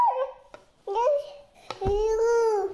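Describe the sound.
A baby babbles in three short vocal bursts with wavering, sing-song pitch, separated by brief pauses and a few small clicks.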